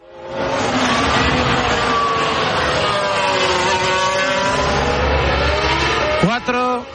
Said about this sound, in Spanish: Antes situamos carrera cerquita de alcanzar el Ecuador en Silverstone. Alex. Vuelta número 21 de un total de 52.